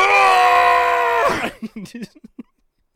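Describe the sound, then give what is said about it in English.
A man's voice imitates a guttural, straining scream like a powerlifter grunting through a heavy deadlift. One long, loud, rough cry holds for over a second, then breaks into a few short vocal grunts. “so you get grunting? That guttural scream going,”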